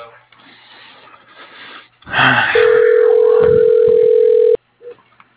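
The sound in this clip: Telephone ringback tone on an outgoing call: a single steady electronic tone lasting about two seconds, heard after a short stretch of voice and noise.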